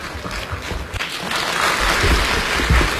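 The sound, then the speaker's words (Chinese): Audience applause welcoming two performers onto the stage at a live crosstalk comedy show: a dense wash of clapping that swells louder about halfway through and holds steady to the end. “感谢大家热烈的掌声”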